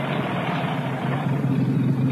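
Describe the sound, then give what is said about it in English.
Military lorries travel in a column along a rough road, giving a steady, low engine drone with a constant rumbling hum that holds level throughout. “I shall pull over here into the side and let some of the lorries pass first.”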